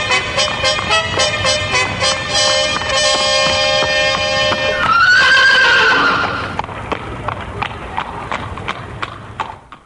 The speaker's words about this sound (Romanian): Iată prima caleașcă din alaiul regesc se ivește la cotitura drumului.